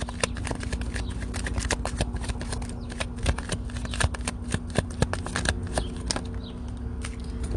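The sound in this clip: Tarot cards being shuffled and drawn from a deck: many quick, crisp flicks and riffles in an irregular rhythm, continuing steadily from start to end.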